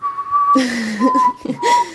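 Someone whistles a film theme in a few thin, steady high notes, broken by a lower voiced sound between the whistled phrases.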